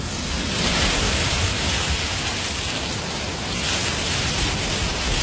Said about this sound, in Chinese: 在耳边，就能听到大海的声音。 你听，